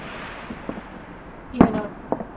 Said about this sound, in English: I might even feel like coming out and recording these fireworks